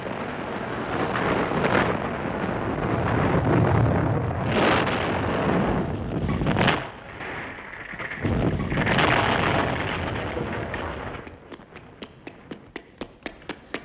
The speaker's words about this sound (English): our gunpowder exploded